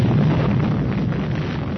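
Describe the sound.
An unstable power reactor exploding in a space battle: a loud, dense, roaring blast rumbles steadily for about two seconds without letting up.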